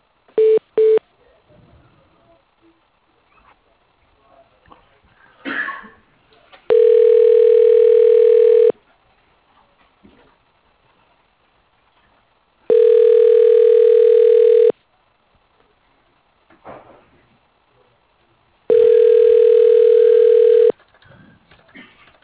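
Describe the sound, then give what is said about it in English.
Telephone ringback tones play as an office call is transferred to voicemail. A few short beeps and clicks come first, then three long, steady, loud ring tones, evenly spaced with quiet gaps between them. “He's not in there, so I'll just transfer you. You can leave a voicemail message.”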